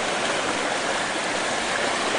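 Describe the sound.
Floodwater flows over the top of a bridge, a steady, dense rushing roar that stays even and unbroken throughout, with no voices.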